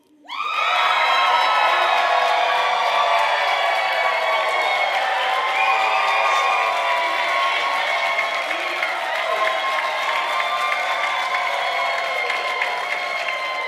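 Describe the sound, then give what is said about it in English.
A studio audience cheers on a countdown with loud, sustained whoops, screams and applause. The sound starts abruptly and holds at full strength, unbroken, for about thirteen seconds. “So in three, I'm going to count down and then cheer with everything you've got. Are you with me? Right? For 10 seconds in 3, 2, 1.”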